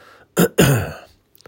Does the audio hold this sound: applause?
no